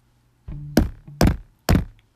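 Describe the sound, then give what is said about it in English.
Three heavy, evenly spaced knocks thump on a motel room door, room 107. Each knock is a loud, dull blow with a brief low resonance, and a softer thud comes just before them. “She did her signature knock so that he would know that she arrived.”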